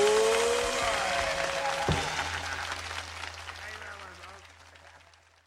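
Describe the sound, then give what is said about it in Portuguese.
Applause from people gathered in a circle breaks out as the last notes of music die away, then gradually fades, leaving a low, steady hum underneath. “aquí todos en la rueda están aplaudiéndole a Louis Armstrong y la güerita también”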